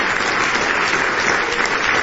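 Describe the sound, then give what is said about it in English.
A church audience claps in praise during a morning service, producing a dense, steady wash of many hands clapping at an even loudness throughout. “Just go ahead and give the Lord a good hand clap of praise this morning.”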